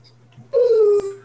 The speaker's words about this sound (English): Don't mind the dog.